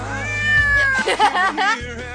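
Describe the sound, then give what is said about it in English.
A domestic cat meows several times in a row, with high, wavering, drawn-out cries and a shorter call near the end, loud and clear over a low background hum. “I gotta feed the cat.”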